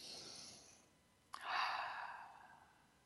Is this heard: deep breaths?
yes